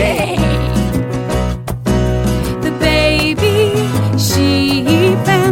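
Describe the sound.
Sheep bleats imitated by a singing voice in a children's farm song, a drawn-out wavering "baa" sung over loud, steady music with bass and accompaniment throughout.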